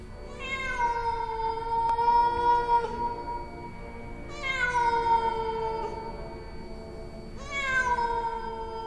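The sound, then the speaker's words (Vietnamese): A cat yowls on a rooftop at night. There are three long, drawn-out, wavering cries with short pauses between them, each a sustained tonal wail at moderate loudness with no other sounds. “Tiếng của nội la hét trong cái tiếng con mèo ở trên mái nhà, cứ kêu đến não cả lòng.”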